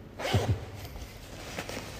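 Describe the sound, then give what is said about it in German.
A small zipper on the back of a suit is pulled, giving a few short, faint zipping rasps in quick succession near the start and a softer brief rasp later, over a low background. “Auf der Rückseite befindet sich das Herzstück, auch ein kleiner Reißverschluss.”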